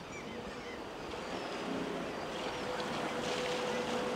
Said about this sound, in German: Nichts stört die Stille, nur das leise Plätschern.